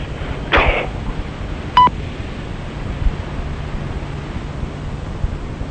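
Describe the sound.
A single short electronic beep from an answering machine picking up a phone call, preceded by a brief burst of hiss over a faint steady low hum.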